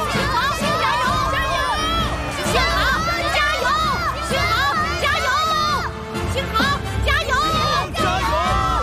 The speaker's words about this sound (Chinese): 这是全场观众都在为我加油